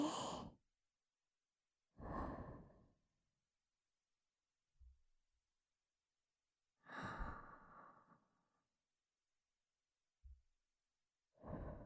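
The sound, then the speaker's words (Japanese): Slow breathing in and out, with a few deep, sighing breaths separated by long silences and two brief, soft low thumps between them. “吸って、吐いて、”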